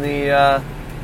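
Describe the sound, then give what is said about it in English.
A backpack leaf blower clears train tracks with a buzzing harmonic engine whine that cuts off abruptly about halfway through, leaving a quieter low rumble. “And guy, buddy's got a backpack blower there.”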